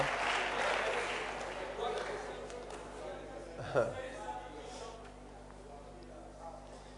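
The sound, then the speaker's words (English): An audience claps at a talk. The applause is loudest at the start and thins out over the first two seconds, then a speaking voice carries on with the clapping gone. “So I don't know why you are clapping.”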